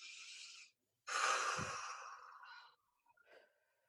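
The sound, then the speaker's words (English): A deep breath is drawn during a guided breathing and posture exercise: a short airy rush, a brief pause, then a longer, louder breathy draw lasting over a second, followed by a faint, soft trailing breath. No one talks. “Get the spine a little bit long. All right, take the breath in.”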